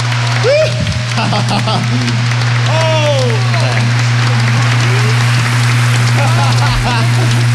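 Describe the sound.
Audience applause at the Sejong Center after a Village People performance, a thick rain-like patter of many hands that runs throughout, with a steady low hum and voices speaking over it.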